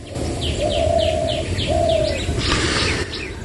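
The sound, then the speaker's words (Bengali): Dove cooing near a paddy field: two drawn-out low coos rise above many quick high chirps from other birds, with a steady bed of rustling background noise throughout. “পাখির ডাক, গুগু পাখির ডাক”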